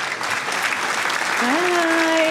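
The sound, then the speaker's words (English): Audience applause welcoming a guest onto a platform about women in the tech industry: dense, continuous clapping that holds a steady, fairly loud level from start to finish. “I want you to go ahead and put your hands together right now and welcome my friend, my sister, Naomi Jordan Cook.”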